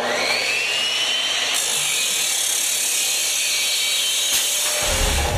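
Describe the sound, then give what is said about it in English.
A cutoff saw grinds through steel stock meant for headboards and frame rails. The loud, hissing abrasive whine holds steady throughout, with no voices. “Use a smooth pull, makes for a smooth cut. Now this is the steel we're using for headboards and frame rails.”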